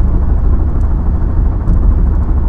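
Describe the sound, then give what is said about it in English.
A car rattles and clatters over a rough road in Nebraska, a loud, continuous low rumble with faint, scattered rattles on top. “I cannot find a good spot to drive on this road without it just clittering and clattering around.”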